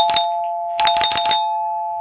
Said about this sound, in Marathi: अरे बेल वाजली, आत्ता कोण आलं असेल? दार उघडतोस का रोहित?